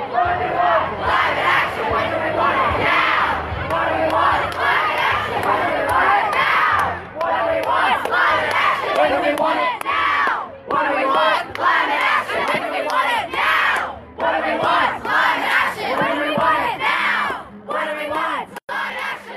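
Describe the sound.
Students lead a street protest, their crowd chanting and shouting loudly and rhythmically with hardly a break, cut into edited segments with a few brief dips in volume.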